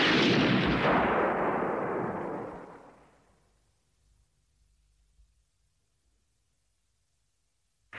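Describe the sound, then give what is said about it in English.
A pistol gunshot in a film scene: one loud, booming blast that rings out and decays over about three seconds, then near silence. “Black retorts in kind by taking out a pistol and blasting Red between the eyes.”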